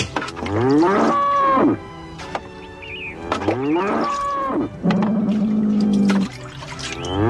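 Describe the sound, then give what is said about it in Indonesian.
Cattle mooing, a cow called for beside a sacrificial animal in the dry season: three long, loud, drawn-out moos with rich low tones, each separated by a short gap, the last steadier and more even in pitch. “Sekarang, bawakan kayunya. Bagus. Sekarang lembunya.”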